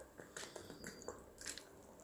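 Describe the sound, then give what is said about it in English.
A sip of water is taken during a talk about building a technology business: faint, wet mouth clicks and soft slurping noises, scattered unevenly over about two seconds. “just taking a sip of water”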